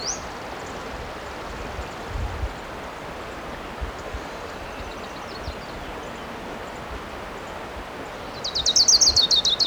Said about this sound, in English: I see the bird. It's definitely an orange crown.